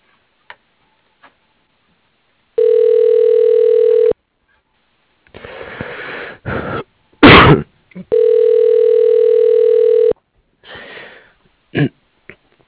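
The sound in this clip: A telephone gives two long, steady buzzing tones, each lasting around two seconds. Between and after them come short, sharp noisy bursts and clicks.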